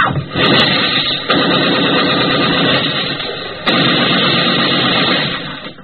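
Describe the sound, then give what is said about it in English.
Battle gunfire in a wartime scene where soldiers are pinned down: three abrupt, loud bursts that break in over a dense, continuous rumbling roar of shots, with no talking. “You don't hear complaints. All you hear are bullets.”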